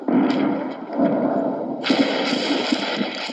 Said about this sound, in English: Bombs falling on Om's part of town.